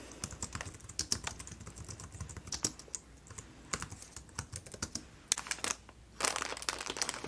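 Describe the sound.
Typing on a computer keyboard during a store checkout roleplay, soft irregular clicks and taps in quick clusters with brief pauses, faint and close, with light crinkles of paper packaging between the keystrokes and no talking.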